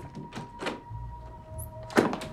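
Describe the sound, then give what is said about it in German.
A balcony door being opened gives a few dull thunks and soft knocks, fairly faint, spread across the moment with a low steady hum beneath. “öffnet die Balkontür”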